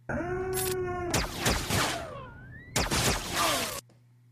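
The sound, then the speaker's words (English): Blaster firing effect of a Death Trooper: harsh, loud electronic bursts with whining tones that sweep and fall in pitch. Two sharp blasts stand out within a continuous stretch of zapping, and it ends abruptly. “I knew that one because Death Trooper has such a unique sound to his blaster.”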